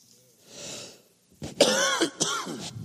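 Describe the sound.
A person with a cold clears their throat with a soft, raspy rasp, then pauses briefly before breaking into a few harsh, wheezy coughs in quick succession.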